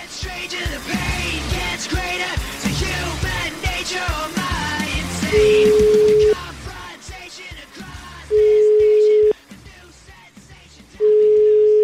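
Ringback tone of an outgoing telephone call: three steady, low one-second beeps, evenly spaced. They follow a stretch of music that drops to a quiet background between the rings.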